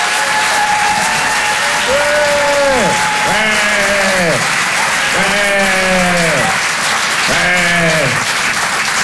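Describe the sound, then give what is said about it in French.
Audience applause and cheering at a live comedy show in a Paris theatre: dense, steady clapping throughout, with four drawn-out whoops swelling and falling over it. “Je vous demande de faire un maximum de bruit et de l'encourager très chaleureusement.”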